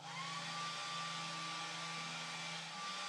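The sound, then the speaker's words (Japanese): A hair dryer blows on someone's hair, giving a steady, even whoosh of rushing air over a low motor hum that runs unbroken from start to finish with no talking. “ささっと乾かしちゃいますね。”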